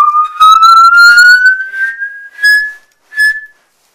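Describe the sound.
A musical saw played by bending its blade, giving a pure whistle-like tone that climbs steadily in pitch as the bend increases. The tone then fades and returns briefly at the higher pitch, with no talking.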